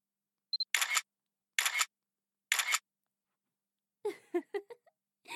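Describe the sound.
Three crisp camera shutter clicks fire at an even, steady pace in a quiet setting, each a short sharp burst, followed after a pause by a brief voiced sound.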